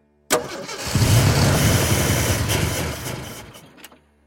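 A vehicle engine cranks and catches. It makes a loud, steady mid-pitched roar for about three seconds, then cuts off abruptly.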